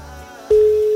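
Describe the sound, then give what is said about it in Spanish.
A telephone line tone sounds as a call is placed from a mobile phone: after a low murmur, a single steady mid-pitched tone switches on halfway through and holds to the end. “Estamos marcando, estamos llamando.”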